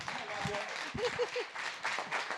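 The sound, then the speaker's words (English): An audience claps and applauds for a pastor at a church service. The clapping is fairly faint and uneven, with voices heard over it. “Stand to your feet. Put your hands together for Pastor Tommy Pinkerton.”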